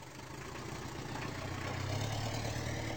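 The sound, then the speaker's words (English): Road noise from the back of a cab riding around West London: a faint, continuous low engine hum and tyre rumble that swells slightly and holds steady with no clear breaks. “If you're wondering about the road noise in the background, Zephaniah is speaking while riding around West London in the back of a cab.”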